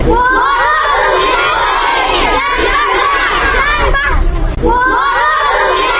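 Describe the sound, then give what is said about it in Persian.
A crowd of schoolchildren at Istiqlal high school in Kabul shouts together for peace. The chanting is loud, continuous and high-pitched, with a brief drop in the voices partway through before the shouting swells again. “این صدای شاگردان لیسه استقلالند که با یک صدا و اراده مشترک خواهان برقراری صلح و ثبات در کشورشان شده اند.”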